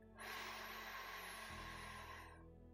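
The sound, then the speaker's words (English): A long, deep inhale during a guided breathing exercise, a soft, steady airy rush lasting about two seconds, heard alone without talk. “So first, just bringing ourselves to this moment with three long, slow breaths. Deep breath in.”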